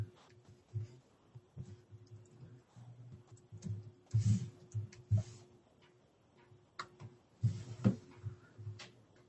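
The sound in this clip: Keys clicking on a computer keyboard as a password is typed: many quick, irregular taps in a few bursts, fairly faint over a steady low hum.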